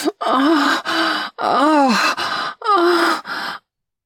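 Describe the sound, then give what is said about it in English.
Loud, breathy groans during sex: six moaning vocal bursts in a row with wavering, arching pitch, then silence. “I've never heard you groan so loud.”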